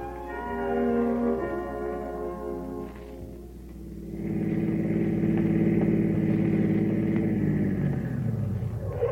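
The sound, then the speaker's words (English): A car pulls into a filling station with a low, rumbling engine. The engine eases off briefly, then settles into a louder, steady idle hum that lasts to the end. “A motorist drives into a filling station.”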